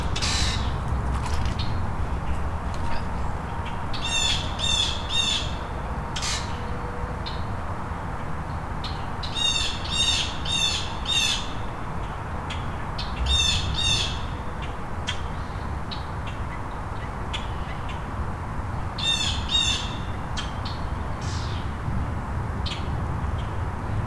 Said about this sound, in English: Or it could be the grackles and blue jays not getting along.